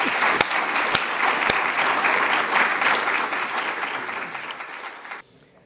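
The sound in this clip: An audience claps steadily in welcome of a speaker, a dense, even wash of applause with a few sharper claps standing out early, then the clapping cuts off abruptly near the end.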